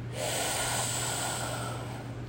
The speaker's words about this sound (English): Take a big, deep breath of relaxation. Breathe in